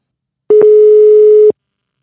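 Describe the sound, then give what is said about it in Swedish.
A telephone tone sounds while a call is being placed, one steady electronic beep lasting about a second, clear and alone against silence. “Kvällens huvudperson, Anders Martinsson, ska vi ta och ringa upp nu.”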